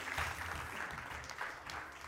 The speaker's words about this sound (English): Let's give her a big round of applause.